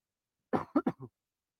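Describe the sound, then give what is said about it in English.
Throat clearing: a quick run of four short, rough bursts, the last one softer, heard alone without any speech. “Sorry, got something in my throat there.”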